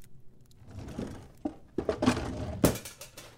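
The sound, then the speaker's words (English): A metal cooking pot slips and clatters in a house, giving a few sharp, bright clanks over a low, quiet background, with no talk. “Hey, keep it down. Sorry, it just slipped. Yeah, I heard that before. Oh, the pot.”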